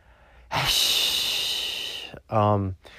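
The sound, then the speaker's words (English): A person breathes deeply: one long, loud, hissing breath in, then a short, voiced, snorting breath out after a brief pause. “Deep breaths. Calm the fuck down.”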